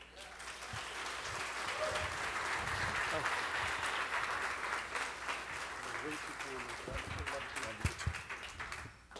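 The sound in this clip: Audience applause welcoming a speaker onto a stage at an event: dense, sustained clapping from many hands that holds fairly even throughout, with some voices mixed into the noise.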